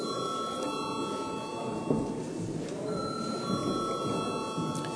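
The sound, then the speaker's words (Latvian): An electric bell rings in a parliament chamber before a vote, a sustained, steady metallic tone held over a low background rumble. “lūdzu zvanu.”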